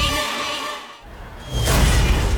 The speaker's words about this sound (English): Smashed roof. Shattered carport. Nothing like a rogue space capsule to bring you back down to Earth, Ajax.